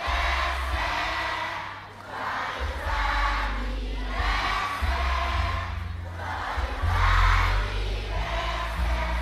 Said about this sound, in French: Alors à trois, on le chante très très fort, joyeux anniversaire, d'accord?